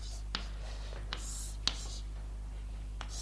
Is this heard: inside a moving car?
no